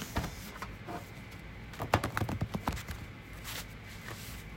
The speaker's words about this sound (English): Shuffle the deck.